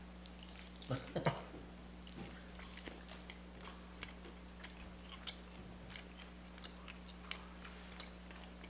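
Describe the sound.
Crunchy biting and chewing on four cinnamon candies at once: one loud crunchy burst early on, then many faint clicking chews over a steady low hum.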